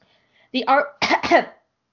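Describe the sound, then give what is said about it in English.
Coughing after inhaling spit: two short, harsh, throaty bursts in quick succession, fairly loud and clear, with silence before and after. “Sorry, I inhaled some spit.”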